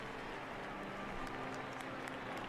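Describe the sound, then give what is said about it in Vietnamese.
Crowd cheering and applauding the Pope and the Eucharistic procession after Mass, a faint, steady wash of clapping and cheering that holds at an even level throughout. “Và tất cả mọi người đã cùng hoan hô, không phải chỉ có với Đức Thánh Cha mà còn việc rước thánh thể như là một truyền thống”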